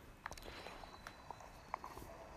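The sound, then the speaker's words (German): Footsteps walking out of a shrine, light and faint, falling as a few soft, irregular taps. “wir gehen aus dem Schrein raus.”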